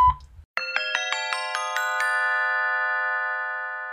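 A1 Mobilbox voicemail signal tone: a quick run of about eight bright chime notes stepping upward, ending in a sustained ringing chord that fades slowly.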